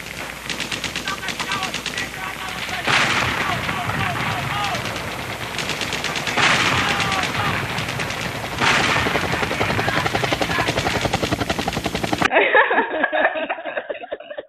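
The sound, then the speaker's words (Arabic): Gunfire sound effect with loud, rapid automatic bursts of shots rattling continuously, with several heavier volleys, before the sound turns muffled and duller near the end. “الصمت المهيب حوالينا خلاص كده صوت ضرب نار خلاص حصل.”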